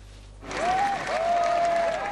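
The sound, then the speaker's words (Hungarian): Applause from the crowd at a mass demonstration against Nazism, rising suddenly after a brief quiet moment into steady clapping, with a thin whistle tone running through it. “Taps fogadta a Fidesz frakció vezetőjét a tömegtüntetés a nácizmus ellen elnevezésű rendezvényen.”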